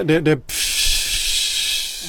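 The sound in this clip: An inflatable life jacket inflating with a sudden, steady, high hiss that starts abruptly after a brief spoken word and continues evenly to the end.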